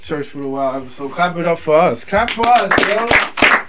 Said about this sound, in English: Clap it up for us. Clap for us, yo.